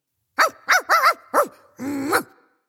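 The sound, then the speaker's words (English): A dog barks at the mailman: a few short, sharp barks in quick succession, then a longer, drawn-out bark, loud and alone with no talking. “Sorry, that's my dog Melvin barking at the mailman.”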